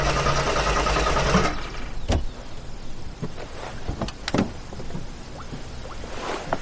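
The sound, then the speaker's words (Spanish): A car engine being cranked as it fails to start: a loud, rough mechanical churning lasts about a second and a half, then cuts off, leaving a quieter background broken by a few scattered clicks and knocks. “Irene está dentro del coche intentando arrancar.”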